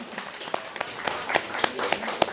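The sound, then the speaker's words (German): Short burst of audience clapping for a dealer at a Transformers fan convention, faint and loosely scattered, with individual claps standing out from a low, uneven patter. “Kurzer Applaus für Brad Bossers.”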